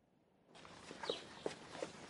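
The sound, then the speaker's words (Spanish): Footsteps of a queen walking slowly through a labyrinth: a few faint, evenly spaced steps sound after a hiss of background noise begins, each a soft, separate tap. “La reina está sola en medio del laberinto. Camina lentamente por las calles del laberinto.”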